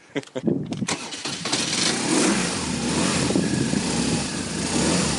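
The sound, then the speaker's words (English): A BMW R1200 motorcycle engine is started. Uneven, sputtering starter cranking bursts come first, then the engine catches and settles into a steady, loud running rumble for several seconds. “working on your beautiful BMW R1200, which you're going to be riding. Yes, I'll enjoy riding my motorbike, yep. Start it up for us.”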